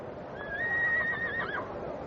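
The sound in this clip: A donkey's high, wavering whinny-like call as it is saddled with clothes and mounted for a ceremonial procession: one sustained tonal cry with quavering pitch, heard alone over a soft background hiss.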